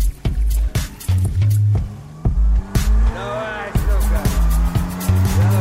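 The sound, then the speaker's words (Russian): A car engine revs as the car turns around on a road, its pitch rising, with repeated thuds, rough road noise and voices over it. “Машина разворачивается.”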